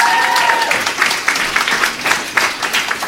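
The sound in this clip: Audience applause for the sponsors at a debate competition: dense, steady clapping from a crowd, loud and sustained for about three seconds.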